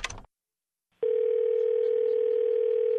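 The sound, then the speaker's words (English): A telephone dial tone: after a brief burst of noise and a moment of silence, a loud, steady, unbroken hum holds at one pitch to the end. “These aren't numbers. Those aren't numbers. They're dial tones.”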